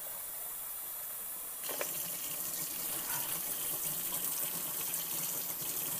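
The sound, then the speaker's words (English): Tap water fills a water bottle: after a quiet hum, a steady rushing gush starts abruptly and runs on evenly, with no voices. “I'm gonna go ahead and fill this one with water”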